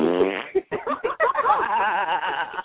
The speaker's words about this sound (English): Why does your stabbing sound like flatulence?